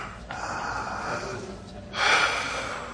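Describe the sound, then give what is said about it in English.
A deep breath drawn by a person: two breathy rushes of air, a softer one early and a louder, fuller one near the end, with no talking. “Deep breath.”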